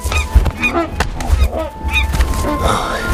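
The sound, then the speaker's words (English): Loud, harsh honks from a giant mother goose, several in quick succession with bending pitch, over a steady low rumble. “Flapping her massive wings, the mother goose rises up and stares at them.”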